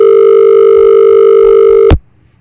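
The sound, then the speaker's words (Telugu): A telephone tone on a radio call-in line: a loud, steady electronic hum with bright overtones holds for about two seconds, then cuts off abruptly with a sharp click into near silence. “Call cut అవుతుంది.”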